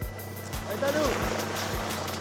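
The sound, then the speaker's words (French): A civil protection helicopter taking off again: steady, rhythmic rotor thumps about twice a second over a constant low engine drone and a thin high whine. “L'hélico de la protection civile redécolle. Il va nous récupérer depuis les airs.”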